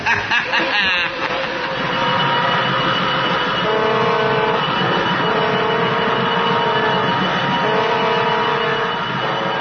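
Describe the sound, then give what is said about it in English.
A cartoon sound effect of a gyroscopic transporter spinning: a loud, continuous whirring roar with steady droning tones that keep going without a break. “My gyroscopic transporter will spin you right out of the universe.”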